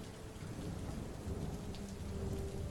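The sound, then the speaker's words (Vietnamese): Heavy rain pours down steadily with a deep, low rumble of thunder rolling beneath it, a dense, unbroken wash of sound throughout. “Nhưng cơn mưa quái ác vẫn không ngừng buông tha.”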